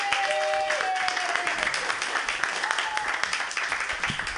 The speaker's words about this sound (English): Everybody put your hands together.